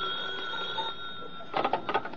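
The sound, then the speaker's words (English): A telephone rings with a sustained, bright ringing tone that holds steady throughout, joined by a cluster of louder, broken bursts toward the end, with no talk over it. “Your telephone's ringing.”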